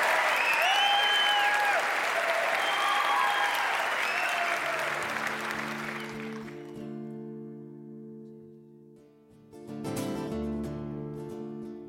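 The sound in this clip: Audience applause welcoming a band on stage, loud continuous clapping for about six seconds that thins out as the band's music begins with sustained held tones, followed by a brief burst of sound near the end.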